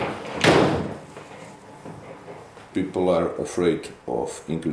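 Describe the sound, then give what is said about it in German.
A window in a house is shut with a single firm thud near the start. People then talk over a quieter background. “schaut interessiert aus dem Fenster und schließt es dann”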